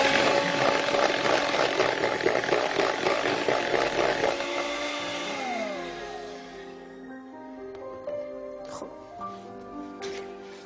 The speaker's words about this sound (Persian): این رو هم با همزن برقی یک دقیقه میزنیم فقط مخلوط شد